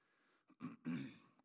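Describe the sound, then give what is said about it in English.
Throat clearing by a speaker during a church sermon: a few short, rough, guttural bursts, the last one the longest, faint and alone. “I'm sorry, I keep clearing my throat”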